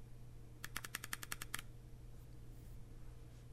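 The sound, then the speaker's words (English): A vape's fire button pressed five times to switch it on makes a quick burst of crisp, faint clicks lasting about a second. A low steady hum follows. “Now, when I turn it on, 5 clicks of the fire button.”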